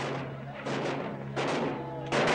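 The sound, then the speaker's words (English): Gunfire in a fight, shots fired from the window of a man's quarters: a few loud, sharp bursts over a steady low hum. “Diego still firing from the window of his quarters.”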